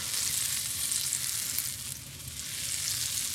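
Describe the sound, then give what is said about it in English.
Butter sizzles as it melts in a hot pan for cooking eggs, a steady, bright frying hiss that dips slightly midway and then builds again, with no talking. “I'm gonna add a nice glug of butter to the pan.”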